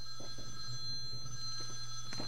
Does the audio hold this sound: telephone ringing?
yes